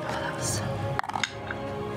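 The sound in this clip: A dice with a die inside it clattering across a table during a tabletop role-playing game: a brief burst of light clicks and clinks lasting a fraction of a second, under ongoing talk.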